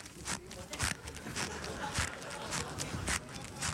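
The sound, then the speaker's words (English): Footsteps crunch up a gravel driveway as a comic sound effect, a steady walking rhythm of evenly spaced gritty scrapes over a low, continuous background hiss. “4 hours later, but an entertaining 4 hours filled with sound effects. I walked up the gray gravel driveway of the old same place.”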